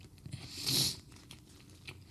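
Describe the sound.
Biting into and chewing a cheeseburger with onions grilled together with the meat: one louder crisp bite stands out, surrounded by softer, moist chewing noises, with no talking.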